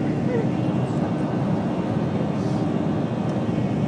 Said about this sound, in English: This is the sound of the aeroplane leaving Lourdes.